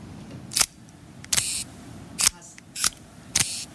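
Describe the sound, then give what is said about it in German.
Shutter release of a Minox B miniature spy camera, a tiny hand-held, battery-free model: five crisp mechanical clicks, unevenly spaced, over a faint steady hiss. “das ist eine Minox B, und die haben sowohl KGB als auch CIA eingesetzt, weil die so klein ist. Die kann ich jetzt hier in meiner Hand halten, man sieht sie fast nicht. Ja. Ich mache mal das Geräusch, wenn man es auslöst.”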